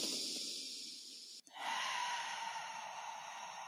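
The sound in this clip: A deep breath is drawn in through the nose, then let out in a long exhale through the mouth, a steady breathy hiss broken by a brief pause, heard alone.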